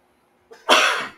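A single allergy sneeze: a brief, soft intake of breath, then a loud, hissing burst that holds for a moment and fades away.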